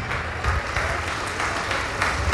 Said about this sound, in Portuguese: A igreja também vai se alegrar e aplaudir. Vamos aplaudir, igreja. Vamos aplaudir mais.